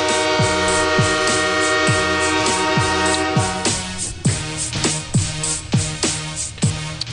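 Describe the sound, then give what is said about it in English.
A train choo-choo sound effect carries a steady, sustained whistle-like tone, cut by many rhythmic falling chuffs. It plays loud throughout with no talk over it. “They're saying choo-choo, folks. That's what the sound you hear is everyone saying choo-choo.”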